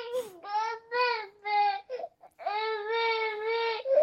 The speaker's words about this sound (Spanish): El bebé.